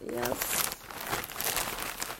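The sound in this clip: Two plastic bags rustle and crinkle as they are pulled out from under a sofa. The crackling is continuous and fairly soft, and a voice is heard briefly at the start.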